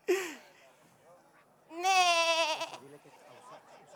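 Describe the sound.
A goat's bleat: one loud, quavering, nasal bleat lasting under a second, preceded by a brief high vocal squeak and followed by faint low sounds.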